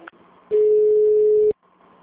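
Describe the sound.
Beep from a city hall telephone answering system: one loud, steady mid-pitched tone lasting about a second, preceded by a brief trace of speech and followed by near-quiet.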